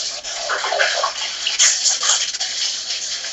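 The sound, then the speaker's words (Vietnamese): Someone scoops water near an open microphone, making loud, continuous sloshing and pouring with brief splashy surges and no talk. “nguyên cái nhóm của mình có ai đang múc nước gì không? Người nào đang múc nước là mừng tắt dùm.”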